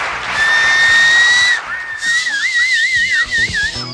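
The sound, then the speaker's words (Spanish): Whistling from an audience at a live show: a piercing, steady high whistle that breaks off, then returns as a rapid warbling trill, loud and with no talk. “¿Quieren dar un chiflido?”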